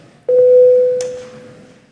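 A single electronic bell tone calls members of the Latvian parliament, the Saeima, to a vote. A steady mid-pitched tone gains a brief brighter accent partway through, then slowly fades, with no voices.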